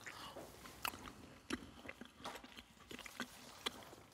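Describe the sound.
Chewing on a taste of bratwurst sausage-meat filling: faint, irregular moist smacks and clicks of biting and mastication, with a voice now and then.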